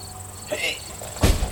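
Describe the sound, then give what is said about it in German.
A Rolls-Royce car boot is opened in an audio drama scene, with softer shuffling and a light click first, then a short, sharp clunk near the end. “Der geht zum Royce. Oh nein. Die Diebe ziehen sich hinter die Hecke zurück. Morton öffnet den Kofferraum.”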